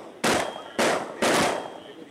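High-powered rifle shots fired at a wild hog in a field: three sharp, loud cracks spaced a moment apart, each trailing off in a fading rumble.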